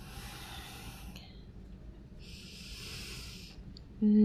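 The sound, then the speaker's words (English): Deep breathing: two long, airy breaths, the first about a second and the second somewhat longer, fairly faint over a low steady background rumble. “Deep breaths.”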